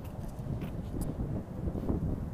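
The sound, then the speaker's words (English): Outdoor breeze buffets the microphone with a steady, low, muffled rumble. It stays at an even loudness for the whole stretch, with no voices and only faint scattered hiss above it. “It's breezy out here to me, shoot.”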